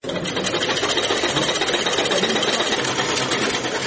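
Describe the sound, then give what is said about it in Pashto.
Sewing machines run in a tailoring workshop, making a loud, steady, rapid mechanical whirr that holds without a break for the whole clip. “په دې خیاطي کارخونه کې چې یو وخت ګڼ شمېر ماشینونه چلېدل، اوس یوازې څو محدود ماشینونه فعال دي.”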